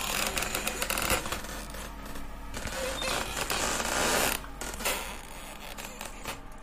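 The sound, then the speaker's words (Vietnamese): A wooden bolt creaks and grates as it is slowly slid along a wooden door, giving a long, fairly quiet series of squeaky, scraping rasps with uneven mechanical clicks. “Tiếng then gỗ di chuyển rít vào cánh cửa gỗ, lét ca lét két, kỳ quái.”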